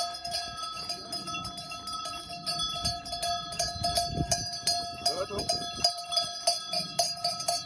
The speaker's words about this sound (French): Alors ce tintement de clochettes, c'est le bruit de vos brebis le jour de la rentrée dans les rues de la ville où vous vivez.